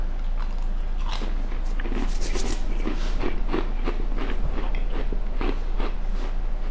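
Someone bites and chews a spiced biscuit: many crisp crunches in a steady, repeated rhythm, fairly loud and alone over a low constant hum, with no talk.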